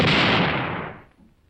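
Gunfire from a firing squad volley: a single loud, broad blast that fades away over about a second.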